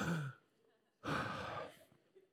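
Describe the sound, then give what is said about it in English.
A person audibly taking breaths: a short, faint breath followed after a pause by a longer, louder, sigh-like breath, soft overall and heard alone without speech. “Okay, now I'm going to take a breath.”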